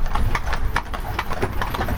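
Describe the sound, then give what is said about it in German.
Hooves of cold-blooded draft horses clop in a quick, continuous rhythm as two harnessed horses pull a carriage with a third following behind, the many hoofbeats layered over a steady low rumble. “Unsere Kaltblutpferde. die gestern Pause gemacht haben, kommen diesmal mit. Und zwar sind zwei vorgespannt und eins läuft hinterher.”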